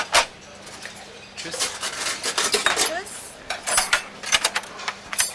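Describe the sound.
Dishes and cutlery clink in a company cafeteria in Cologne. Many sharp, irregular chinks and clatters of plates and silverware come in bursts over a low, steady background.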